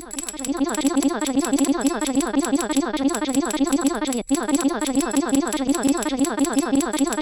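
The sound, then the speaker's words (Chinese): Rapid automatic screen taps from an auto-clicker app on continuous clicking: a dense, even stream of fast, crisp clicks at a steady rhythm, broken by one brief gap partway through before resuming. “我们就用 连续自动点击， 连续自动点击来点。大家听， 控件点击，”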